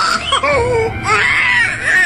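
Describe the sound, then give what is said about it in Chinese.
A newborn baby boy wails just after birth, a loud, continuous high-pitched cry whose pitch wavers up and down through the whole two seconds. “在一声撕心裂肺的喊叫挣扎之后，哇哇的哭声瞬间迸发出来，一个硕重的男婴咕咕坠地”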